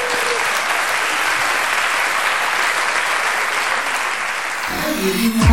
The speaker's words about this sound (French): pouvez applaudir les enfants.